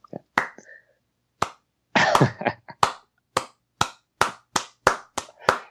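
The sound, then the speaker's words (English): One person gives a slow clap: sharp, isolated hand claps that start widely spaced and gradually quicken, with a voice speaking briefly near the beginning. “Congratulations. I just gave myself a slow clap.”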